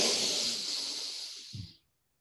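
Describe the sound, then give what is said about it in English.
A quick, deep breath drawn in through the nose during a guided relaxation exercise, one hissy, airy inhale that fades slightly before cutting off abruptly. “Once again, let's take one of our relaxing breaths. Breathe in quickly.”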